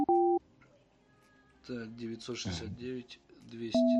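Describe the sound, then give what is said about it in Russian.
Telephone keypad tones as a number is dialled: two loud, steady dual-pitch beeps, one at the start and one at the end, with a person talking between them. “Так, сейчас я набираю.”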